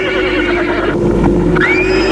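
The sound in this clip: A horse whinnies while being readied at a stable. A single wavering neigh stands out over steady, loud background noise.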